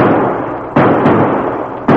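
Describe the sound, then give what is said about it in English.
A marshal fires three gunshots in a radio drama. Each blast is loud and booming, and its ringing tail runs into the next shot. “Chucks, I seen my bullets hit the dirt 20 feet away from him.”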